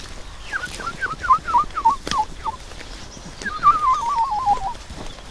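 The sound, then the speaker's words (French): A human voice whistling an imitation of woodlark song: a run of short, clear, falling notes, then a quicker wavering trill in the same register, over soft outdoor background noise. “Là, ce qu'on entend au-dessus, c'est une alouette Lulu, c'est une petite alouette très mignonne, mais je sais pas si elle chante en vol, elle est au-dessus de nous, mais comme elle est loin, on la voit pas. Ça fait quoi ? Ça.”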